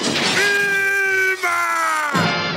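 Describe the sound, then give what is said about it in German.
A loud, sustained scream from a cartoon character, the Stone Age father of a 1960s American animated sitcom: one long, strained, harmonic yell at a fairly steady pitch, briefly breaking midway before carrying on. “Und Branding ist außerdem durch einen Schrei für immer mit einer berühmten Cartoon-Serie verbunden. Achtung, es wird laut.”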